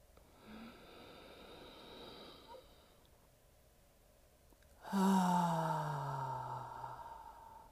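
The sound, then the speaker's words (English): A deep breath drawn in slowly through the nose, a soft airy inhale of a few seconds, then a short pause before a louder, sigh-like exhale released through the mouth that slowly fades out. “taking deep breaths in through my nose, holding that breath for a few seconds, and then releasing it through my mouth. And that sounded something like this.”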